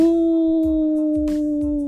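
Jackals and wolves howl in one long, steady, drawn-out tone that dips slightly in pitch near the end, with faint low rumbling beneath.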